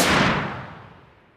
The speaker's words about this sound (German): Einer von den Wissenschaftlern zog daraufhin seine Pistole, zielte auf den Kommandanten und drückte ab.